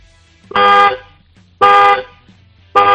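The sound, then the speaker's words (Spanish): Three loud car horn honks from a 2018 car, each a bright, steady, buzzy tone lasting under half a second, separated by short pauses; the third is cut off at the end. “dale tres toquecitos al claxon, a ver cómo suena”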